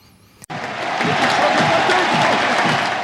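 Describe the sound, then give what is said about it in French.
A crowd applauds on the Roland-Garros centre court at Jo-Wilfried Tsonga's farewell match. After a brief quiet moment, loud clapping suddenly erupts and swells into a thick, sustained roar of applause. “Ambiance fantastique, irréelle sur le central de Roland-Garros. Le public en folie pour la DER de Joe.”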